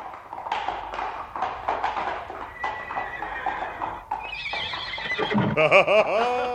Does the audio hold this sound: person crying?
no

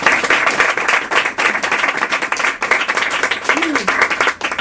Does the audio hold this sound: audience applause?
yes

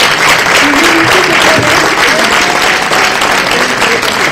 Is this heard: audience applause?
yes

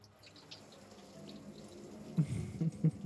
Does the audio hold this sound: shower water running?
yes

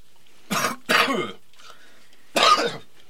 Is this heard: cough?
yes

